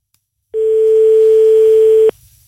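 A single loud, steady telephone tone sounds as a call is placed during a radio phone-in. It holds one low pitch for about a second and a half, then cuts off abruptly into faint line noise.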